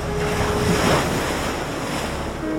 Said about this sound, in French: Un simple son de vague enregistré sur la côte atlantique.